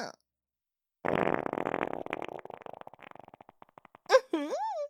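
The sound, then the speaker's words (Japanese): A long, loud, sputtering fart lasts about three seconds and breaks up into a run of quickening little pops as it fades. A voice begins right after it. “おなら出ちゃった。”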